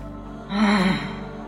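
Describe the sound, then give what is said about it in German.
A faint, low moan from a person, a short voiced groan about half a second long at a fairly steady low pitch that sags at the end. It stands alone over a quiet background hum. “hört sie plötzlich ein leises Stöhnen.”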